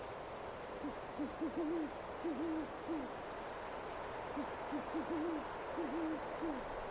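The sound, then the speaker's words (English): An owl hoots in dark woods: low, soft hoots in short rhythmic runs, separated by pauses, faint against a steady background hiss. “You can hear the hoot of an owl.”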